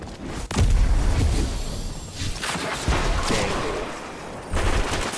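Gunfire in the video game Destiny 2 comes as several loud bursts of rapid shots and booming impacts, separated by brief lulls and layered over a dense, noisy background.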